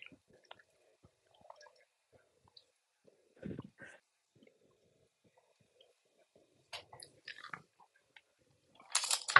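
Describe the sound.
Soft, squishy chewing of gummy candy comes in a few short, moist bursts separated by long quiet gaps, faint and intermittent throughout.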